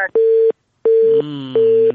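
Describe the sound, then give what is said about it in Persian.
A telephone busy tone after a dropped call: three loud, steady, evenly spaced beeps of equal pitch, separated by short silences, with a lower droning tone sounding under the later beeps. “این دومین تماس است که قطع شد.”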